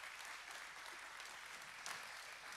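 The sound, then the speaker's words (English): Church audience applauds to welcome a guest speaker before a Sunday morning sermon, a steady, even wash of clapping that carries on throughout without voices. “So give him a hand.”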